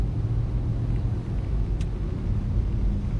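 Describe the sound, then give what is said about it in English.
A car being driven in the rain gives a steady, low road-and-engine rumble with an even level throughout and no voices. “it'd be irresponsible to do that while driving a car.”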